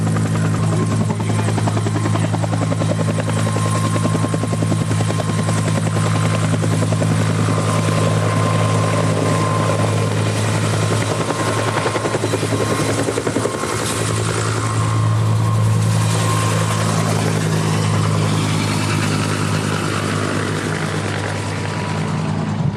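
A Huey helicopter running up for takeoff makes a loud, continuous thudding rotor drone with engine whine. It holds steady for the whole stretch, with a slight surge in the latter part, and no talk is heard over it.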